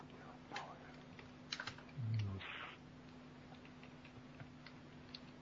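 Keys on a computer keyboard tap sparsely as someone types code, with a few isolated clicks and one short, denser cluster of strokes over a faint steady hum.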